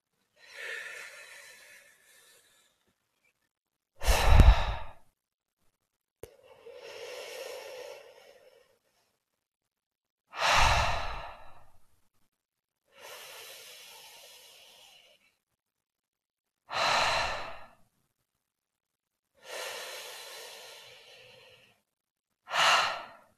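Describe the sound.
Slow, deep breathing during a meditation exercise: four full cycles of long, soft, airy inhales, each followed by a shorter, stronger exhale, with quiet pauses between breaths and no voices.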